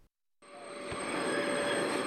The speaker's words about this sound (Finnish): Juna jarruttaa, jarrut kirskuu, juna saapuu Helsingin asemalle jostakin päin.